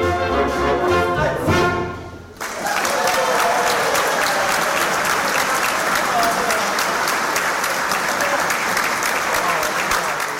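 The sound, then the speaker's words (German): Audience applause breaks out as a song ends. About two seconds of music lead into loud, dense clapping from a crowd, which holds steady and unbroken to the end. “Das war Applaus für Heinz Erhardt oder Klaus Hanke.”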